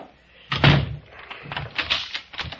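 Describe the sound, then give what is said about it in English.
A door is shut with a heavy thud, then a few sharp clicks and rattles follow as it is locked. “Just a minute while I lock up.”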